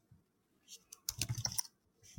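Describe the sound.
Faint typing on a computer keyboard, a few scattered clicks followed by a quick dense cluster of keystrokes, all quiet.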